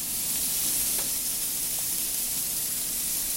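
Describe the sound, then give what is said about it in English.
Scallop searing in a hot pan, giving a steady, even sizzle and hiss that holds at a constant level throughout, with no voices over it. “I can see the edges on that scallop getting brown, which is really, really, really nice. And you want to watch it caramelize almost. You can watch the whole process just from the side if you look at it.”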